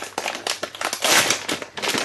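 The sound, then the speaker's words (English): A plastic bag of dried pasta, marked as easy seal, crinkles and tears as it is ripped open. The rustle is dense and continuous, broken by sharper crackles throughout. “Get the bag open, and then even though it says easy seal, I always seem to manage to rip it open and it goes everywhere.”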